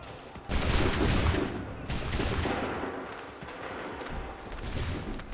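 A loud gunfire volley fired on command in a war scene: a dense burst of many shots together, then a second burst, with crackling, rumbling fire carrying on afterwards.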